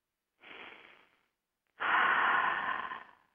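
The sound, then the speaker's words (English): Deep breaths taken during a guided group breathing exercise: two breaths with no talk, the first shorter and softer, the second longer and noticeably louder before it trails off. “Let's take a couple of breaths.”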